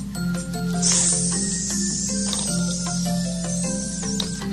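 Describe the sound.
A voice imitates a snake's hiss while telling a children's story. The long, sustained, high sibilant hiss lasts several seconds over tonal background music.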